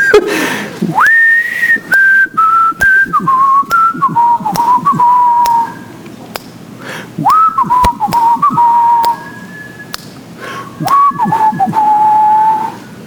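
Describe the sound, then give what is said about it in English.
A person whistles a tune from a dry mouth, a clear, melodic line in three phrases separated by short pauses. Notes slide between pitches and sit at a steady, moderate loudness, with faint clicks around them. “Now my mouth is so dry, I don't even know if I can whistle.”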